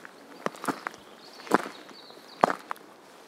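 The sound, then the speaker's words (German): Footsteps of a hiker climbing a steep forest path on a mountain approach: a few soft, irregularly spaced steps, faint against a quiet background, with no talk. “Also ich gehe hier durch so einen Wald, das ist relativ steil, die Sonne scheint.”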